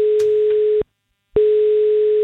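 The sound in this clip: Telephone dial tone while calling a contest winner: a steady low hum that cuts off for about half a second, then returns at the same pitch, with a few faint clicks near the start.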